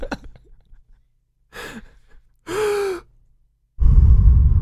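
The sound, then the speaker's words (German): Deep belly breathing: a few slow, loud breaths in and out, one carrying a faint voiced, sigh-like tone and the last a heavy, rumbling exhale. “Atme mal in den Bauch jetzt. Atme in den Bauch.”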